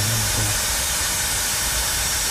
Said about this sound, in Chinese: 打开 APP， 点这个喷药，开启，接着就起泵了。